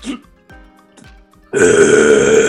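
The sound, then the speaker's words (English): A man lets out a loud, nasty burp: a deep, throaty, sustained belch that starts abruptly after a few soft, sparse sounds and holds strongly for about a second. “The loudest, nastiest burp ever erupts from Detective Wyatt Stanton as you ask him, Varian, if he's considered having any water.”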